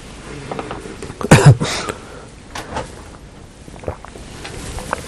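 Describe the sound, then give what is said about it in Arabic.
A brief scraping slide as something is pulled shut to block glaring light: one short, fairly loud burst early on, then only faint room noise. “أغلق هذا عشان الضوء اللي هناك هذا يضرب في عيني”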